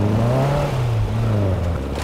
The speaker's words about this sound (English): You couldn't have gone with a vehicle with a heater? Oh, come on. The buggy's the best thing for all terrain. We are not getting stuck out here.